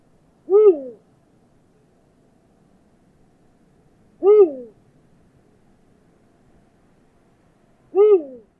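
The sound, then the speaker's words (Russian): An eagle owl gives three deep, resonant hoots, each a short two-part call, spaced evenly by a few seconds of near silence. “Крик филина — это такой классический крик совы, который у большинства людей возникает в голове, когда они думают про крик совы. Это такое уху, уху. Можно послушать сейчас, как это звучит.”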